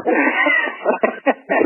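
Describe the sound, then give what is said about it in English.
Cats yowl and caterwaul in a wavering, drawn-out cry, then break into a few shorter, choppy bursts. “I put two cats in a bag and shook it really hard”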